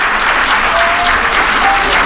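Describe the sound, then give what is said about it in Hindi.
Studio audience applause welcomes a guest on a radio show: steady, dense clapping that stays loud and even for about two seconds, with no voices on top. “ढेर सारी तालियां उनके लिए, उनको खुश आमदीद”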